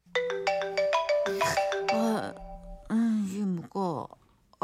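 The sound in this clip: A telephone rings at night while the family sleeps: a loud melodic ringtone of repeated bright notes, with a voice over the later part.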